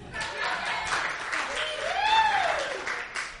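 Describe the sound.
Audience applause for comedians at a live show at Brody Theater: steady, dense clapping that holds at an even level for the whole clip.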